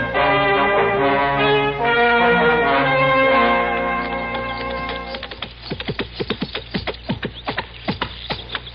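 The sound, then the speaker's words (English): Hoofbeats of a horse that has been ridden hard, arriving in a rapid, uneven run of many sharp clops after several seconds of sustained harmonic tones. “Yeah, looks like you've been riding hard. Yeah, I have, kind of. Rub him down good, will you, Moss, and throw him some extra grain.”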